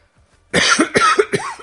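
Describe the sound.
A person coughs three times in a quick, harsh run. Each burst is loud and raspy with a voiced, throaty edge, and short gaps separate them. No speech.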